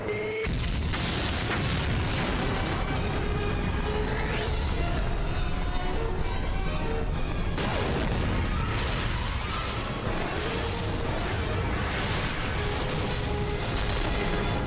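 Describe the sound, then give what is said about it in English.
Explosion of an incendiary device attached to a transporter: a sudden sharp blast gives way to a sustained, loud roaring rumble, with a second surge of booming partway through before the din carries on. “The dish stolen from J3 Communications is magnifying the incendiary device attached to the transporter. And it's about to go off.”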